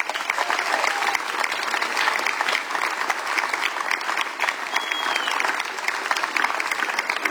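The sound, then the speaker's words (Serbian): Warm applause from a festival audience greeting a singer onto the stage near the end of an evening of songs. Dense, steady clapping continues without a break for about seven seconds. “Dame i gospodo, toplim aplauzom pozdravite, s nami je Nevia Riguto.”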